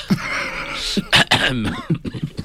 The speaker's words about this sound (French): Tu me fais tousser